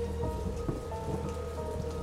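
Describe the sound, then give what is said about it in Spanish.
Rain falls across a city at night as a continuous, even hiss with a dense low wash underneath. The sound stays steady throughout, and no voices are heard. “Lucio y el subinspector Castillo vuelven a atravesar la ciudad bajo la lluvia.”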